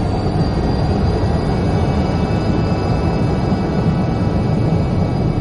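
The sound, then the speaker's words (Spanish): An airplane taking off and climbing gives a loud, steady, low engine roar with a faint high whine riding above it, unbroken throughout. “El avión despega y se eleva sobre la vista”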